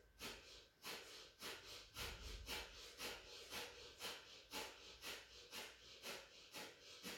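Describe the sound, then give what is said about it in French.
Slow, steady breathing in and out through the nostrils during a guided breathing exercise: many soft, even airy breaths in a regular rhythm, with no talking. “on entend le passage de l'air dans les narines. Quand il monte, quand il descend, quand il rentre, quand il sort.”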